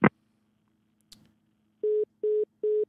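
A telephone line after the caller hangs up: a sharp click and a faint second click, then three identical, evenly spaced steady beeps.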